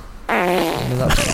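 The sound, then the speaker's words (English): Fart noise from a sound effect machine with buttons: a single drawn-out, buzzing, tonal raspberry lasting about a second, ending in a rougher burst. “I've just got this machine with buttons, and I can type in the word fart, and it just comes up with loads of fart noises.”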